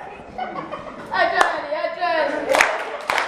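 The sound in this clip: A few sharp hand claps from a group of people cut through ongoing talking voices.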